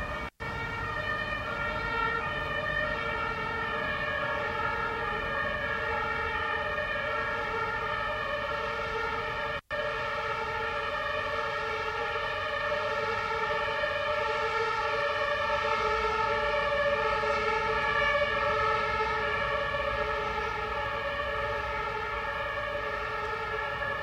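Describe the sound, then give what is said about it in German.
An ambulance siren sounds loudly and continuously, a steady high harmonic wail that barely changes pitch and cuts out twice for an instant. “gerade auch so etwas hörend wie einen Krankenwagen”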